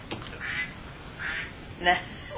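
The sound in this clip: Three short, nasal duck quacks, moderately loud and spaced about a second apart, over a steady low background.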